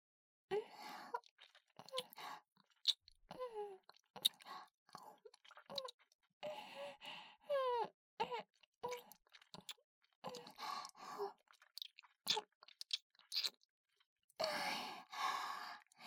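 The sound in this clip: Wet licking and mouth sounds: many soft smacks and clicks in irregular bursts, mixed with breathy sighs and soft hums from a close voice.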